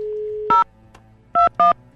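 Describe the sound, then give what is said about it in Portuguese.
A telephone number is dialed on a touch-tone phone: a steady dial tone cuts off at the first keypress beep, then a short pause before two more quick beeps, three clear tones in all. “Deixa eu ligar pra Silvia, vai”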